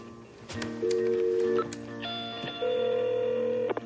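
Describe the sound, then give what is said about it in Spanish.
A landline telephone is dialed, producing a few steady electronic keypad tones of differing pitch, each held for a moment over a faint low hum, with short gaps between them. “Más tarde, toma el teléfono fijo y hace una llamada.”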